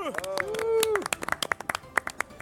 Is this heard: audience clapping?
yes